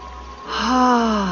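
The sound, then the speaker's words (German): A deep breath is drawn in through the nose and let out through the mouth during a guided relaxation exercise. A soft, hissy inhale gives way to a louder, longer breathy exhale with a faint voiced, sigh-like tone. “Ich möchte, dass Sie tief durch die Nase einatmen und durch den Mund ausatmen, so wie hier.”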